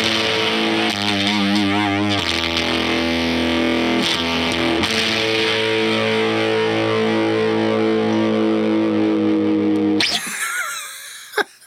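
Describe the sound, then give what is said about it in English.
Electric guitar through an overdrive pedal with the gain turned all the way up: a thick, saturated, buzzing distorted tone holds loudly for about ten seconds, with the chord shifting a few times, before breaking into a noisy, scratchy tail. “See, now it sounds like an overdrive pedal right there at noon.”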